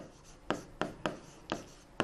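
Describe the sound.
Writing strokes from a pen or marker during a lesson, five short scratchy strokes spaced unevenly, crisp and fairly quiet over a low background hiss.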